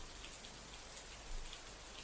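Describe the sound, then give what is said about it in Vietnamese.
Rain falls in a steady, dense hiss of countless drops, even and faint throughout, with no voices or distinct events. “Tiếng mưa lẫn trong âm thanh phầm phập, ghê rợn.”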